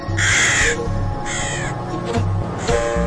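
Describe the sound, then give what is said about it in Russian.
A crow caws in harsh, raspy bursts, several loud calls with one fainter call between them, over a soft, steady musical backdrop. “Вскоре прилетела ворона и радостно сообщила:”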